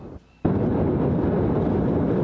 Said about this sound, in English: In video from the day of the blast, you can see white flashes, what appear to be fireworks, going off before the massive explosion.